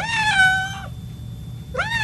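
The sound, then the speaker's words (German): A cat meows twice, a drawn-out, clear meow followed after a pause by a second that is cut off at the end. “Und wie macht die Katze?”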